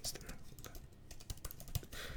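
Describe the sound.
Typing on a computer keyboard to enter a web search: a quick, irregular run of soft key clicks at a low level.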